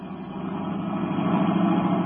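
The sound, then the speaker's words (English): Car engine of a sedan accelerating along a concrete road, a steady low rumbling drone that grows slightly louder over about two seconds, with no voices. “Britt Reed pressed down on the accelerator. The sedan sped along the concrete after Brinkley's car.”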